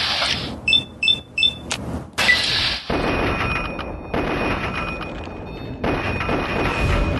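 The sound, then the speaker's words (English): Assault rifle fire in a video game: a few quick, sharp shots at the start, then a heavier blast, followed by a sustained, rough roar of noise. “Nice. Liking this assault rifle. Decent number of VATS chances.”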